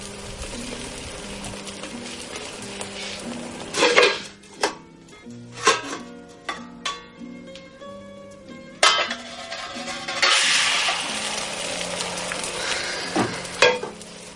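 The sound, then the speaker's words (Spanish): A lid is set on a frying pan to flip a Spanish omelette. Sharp metallic clanks and knocks sound over a steady sizzle, and the frying swells louder near the end. “está haciendo una tortilla. Pone la tapa sobre la sartén para darle la vuelta.”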